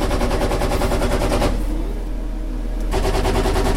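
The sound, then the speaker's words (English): Rapid automatic gunfire from U.S. soldiers test-firing their guns as they leave an American base in Kirkuk; dense, loud, continuous bursts with a brief, slightly quieter lull in the middle. “U.S. soldiers test-fired their guns today as they left an American base in Kirkuk.”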